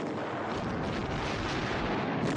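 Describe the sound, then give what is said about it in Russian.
Artillery shells explode behind trenches in a war film as tanks and infantry advance. The blasts merge into one loud, unbroken roar without separate distinct bangs. “Танки и пехота продолжают приближаться, не сбавляя скорости. Выпущенные снаряды ложатся за окопами.”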